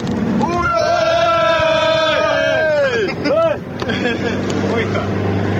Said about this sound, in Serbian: Evo, poslušajte kakva je atmosfera bila u Kombiju za vreme putovanja. Poštovani slušalci, evo malo atmosfere iz našeg Turbo Cyber Kombija.